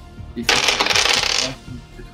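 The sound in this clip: Dice rattle and clatter as they are rolled during a tabletop role-playing game session, a single clattering burst of about one second with faint voice sounds around it.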